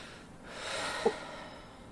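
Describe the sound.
A single breathy gasp voiced by a person imitating a character's startled reaction, a soft rushing inhale with a brief click in the middle, faint and alone.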